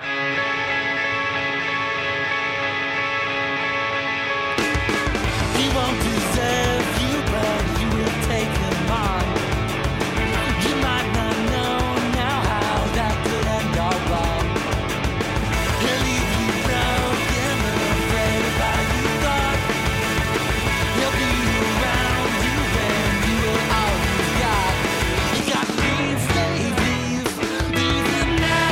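An emo rock song opens with a quieter tonal intro before the full band crashes in with driving drums and dense distorted guitars, staying loud and steady throughout.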